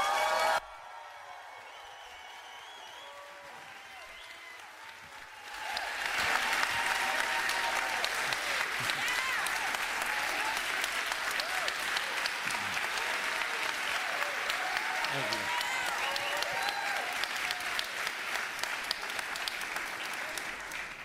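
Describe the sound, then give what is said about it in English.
An audience at a church gathering in New York City applauds to welcome a pastor. The clapping starts faint and thin, then swells after a few seconds into dense, sustained applause that continues steadily to the end. “We give them the biggest ovation we possibly can. And so, can you give a Queens Boulevard welcome to Pastor Aaron Stern?”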